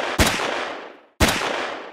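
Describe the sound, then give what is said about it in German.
Two sharp pistol shots ring out about a second apart, each a loud crack with a long, slowly fading tail, with no voices. “Dreimal schoss er.”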